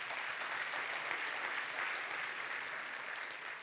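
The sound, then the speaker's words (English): Congregation applause during a church service, a faint, even wash of many hands clapping that holds steady without breaks from start to finish. “Give God a hand of praise.”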